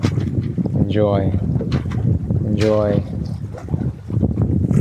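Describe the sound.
Gentle wind and water on the bow deck of a sailboat, with a steady breathy rush of wind buffeting the microphone. A voice is heard briefly twice over the noise.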